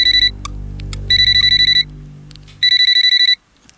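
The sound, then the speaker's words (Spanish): An alarm clock rings in three bursts of rapid, high, pulsing beeps separated by short gaps, over a low droning tone that fades out before the last burst ends. “Suena el despertador y te levantas.”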